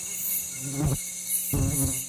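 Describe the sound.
Mosquitoes buzzing: a steady, high-pitched whine that holds throughout, with no talk.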